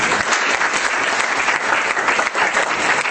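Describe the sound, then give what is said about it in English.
Audience clapping at a Christian gathering after a group exercise, with many hands beating a steady, dense patter that stays loud throughout. “why don't we just give a clap? Everyone did so well.”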